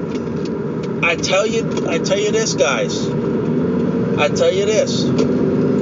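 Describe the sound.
Engine hum and road rumble of a car driving to a store, a steady low drone running throughout beneath a person talking.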